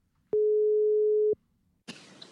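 A telephone ringback tone sounds while a call is being placed: one steady, mid-pitched beep lasting about a second, then a pause and a short burst of noise.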